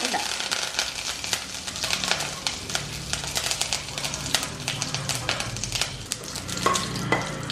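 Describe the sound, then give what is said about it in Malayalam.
Mustard seeds, dried chillies and curry leaves frying in hot oil give a steady, dense sizzle broken by many sharp crackles and pops, with occasional scraping from stirring throughout. “നമുക്ക് എണ്ണ ഒഴിക്കാം, കടുക് അതിലേക്കിടാം, 2 വറ്റൽമുളകും അതിനകത്തോട്ടിടാം, 2 ദണ്ട് കറിവേപ്പില”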